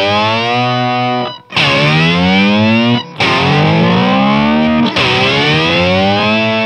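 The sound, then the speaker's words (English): A guitar synth pedal on its first preset gives a loud, buzzy, heavily distorted synth tone rich in stacked harmonics, played as four sustained notes separated by brief breaks. “So basically you get four different sounds out of it using the preset switch, four different synth sounds. So here's the first one”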